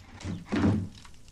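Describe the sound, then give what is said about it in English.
A chair is moved aside beside a table laid for breakfast, giving a single muffled thunk that swells and fades quickly, heard alone. “Noticing the table is laid for breakfast, he moves a chair out of his way.”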